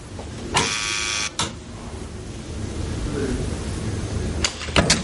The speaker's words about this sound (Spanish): Llama a un timbre donde hay un nombre sobre el mismo y espera.